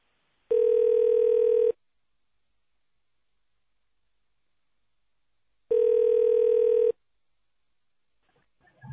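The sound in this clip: Telephone ringback tone on a hotline line during a call transfer: two long, steady electronic tone bursts separated by a long silent gap, alone with no voices.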